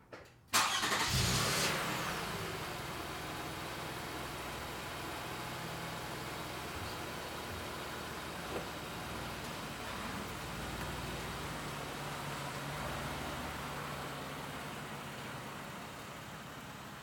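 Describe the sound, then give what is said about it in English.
Toyota Sienna starting up in a garage, backing out and driving away: a quick start-up burst gives way to a steady, fairly faint engine hum that runs on with little change until the end. “First, starting up in the garage, backing out, and driving away. So first, the Toyota Sienna”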